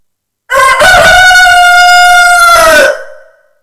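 A rooster crows once, loud and alone: a long, strident harmonic call that holds steady for about two seconds, then trails off and fades at the end.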